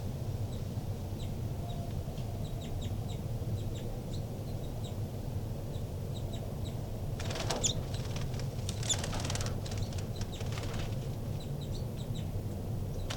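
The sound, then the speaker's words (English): Baby birds that have just left their nest call with faint, high, repeated chirps while climbing a screen, and a burst of soft fluttering and rustling rises in the middle over a steady low background hum. “I disturbed the birds quite a bit, and the two new babies popped out of the nest, and they're climbing the screen now.”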